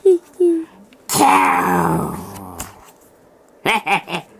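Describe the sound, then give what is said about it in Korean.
A voice imitates a baby ankylosaurus sobbing: two short whimpers, then a long wavering wail that sinks in pitch, ending with a few quick, choked sobs. “아기 앙킬로사우루스는 슬퍼서 훌쩍훌쩍 울었습니다.”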